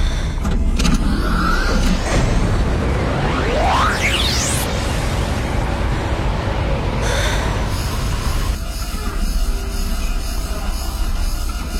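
A car accelerating as an audio-drama effect: a dense, loud roar throughout, with a whine sweeping sharply upward in pitch midway, then settling into a steadier hum.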